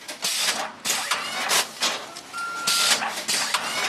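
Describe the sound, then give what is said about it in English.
Conveyor belts and shrink wrap machines whir and clatter in a plant nursery warehouse as bulbs and roots are bagged. Mechanical bursts repeat in regular cycles, and a short electronic beep sounds partway through. “Over in the warehouse, the musty smell of peat moss hangs in the air as bulbs and roots twirl through conveyor belts and shrink wrap machines into bags to ship to customers.”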